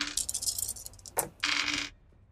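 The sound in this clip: Dice rattle and clatter during a stealth roll in a tabletop role-playing game, in two short bursts of bright clicking, with no talk over them.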